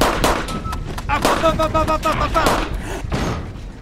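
Homemade bomb exploding: a dense, loud stretch of rumbling blasts and crackling bursts that continues throughout without a break.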